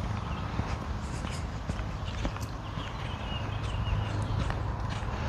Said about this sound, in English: All right, we're going to have to cross the street. Doesn't matter which side I walk on now.